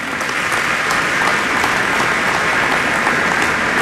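Audience applause at a county community address: dense, loud, continuous clapping from many hands that holds steady for the whole few seconds.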